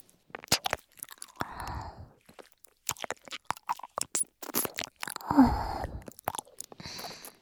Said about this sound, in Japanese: 同級生の左右からの耳舐めで、脳みそいっぱいとろかしちゃおう。